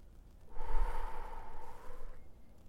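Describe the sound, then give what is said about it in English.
A single slow, deep breath drawn in through the nose and let out through the mouth: a soft, airy hiss lasting under two seconds, swelling early and then easing off, with no talk. “taking a deep breath in through the nose and out through the mouth.”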